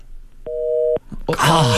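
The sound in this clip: The ringing tone of an outgoing telephone call: one steady, dual-pitched electronic burst about half a second long, followed by a person talking.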